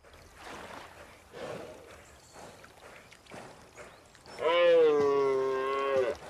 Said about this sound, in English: Finally, the cry of victory.